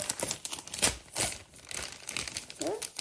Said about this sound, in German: So, das waren alle meine Karten. Ich muss sie zurück tun.